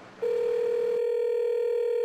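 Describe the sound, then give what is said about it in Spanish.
A telephone line tone on a call: one steady, fairly low beep that begins abruptly and holds unbroken for about two seconds, loud and alone. “Los familiares de Valentina no paraban de marcarle al teléfono. Pero dejaban la llamada abierta.”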